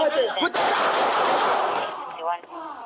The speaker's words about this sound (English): Shots fired, put it out!